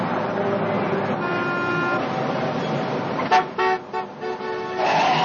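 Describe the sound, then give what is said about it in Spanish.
Car horns honk in a traffic jam, with several short, loud blasts of varying length over a steady rumble of stopped traffic, and a voice speaking over it. “Los policías se detienen en un atasco. Jimmy sale del coche. Corre entre los automóviles parados buscando el vehículo de Sal.”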